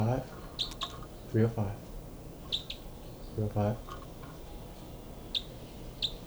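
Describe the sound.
Birds calling loudly: short, high chirps recur a few times between brief bursts of lower, harmonic calls, each call sharp and clipped against a quiet background.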